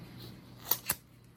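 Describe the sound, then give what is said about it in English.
Gift ribbon is pulled across a cutting tool to curl it: two quick, crisp swishing snips close together against an otherwise quiet background. “Now let's see, does it curl ribbon? So I'll put it on here.”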